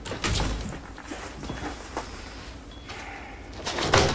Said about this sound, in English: The outer doors open and John floats out.